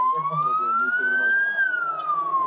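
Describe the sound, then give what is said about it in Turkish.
An ambulance siren wails in heavy traffic near a tunnel, one slow rising-then-falling sweep over a steady low rumble of engines. “O an bir ambulanstan yükselen siren sesini duydu.”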